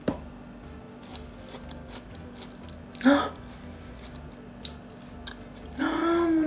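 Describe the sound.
Chewing on sweet corn, super-sweet corn from Shinshu with the kernels loosened from the cob, gives soft, faint crunching bites over a low steady hum, with a louder burst near the middle and a short voiced murmur at the end.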